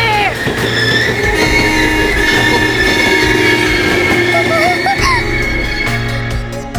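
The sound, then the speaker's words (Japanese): A train on the rails comes to a stop, with a heavy, steady rumble and rolling wheels, and high metallic brake squeals that sharpen toward the end. “転落だ、電車止めろ。旗を見てくれ。停止停止。”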